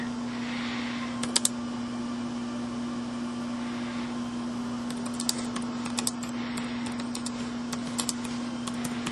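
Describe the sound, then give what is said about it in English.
Slow typing on a computer keyboard with one hand, with sparse, faint key clicks scattered over a steady low hum. “Hold on, I'm typing with one hand, it's too slow.”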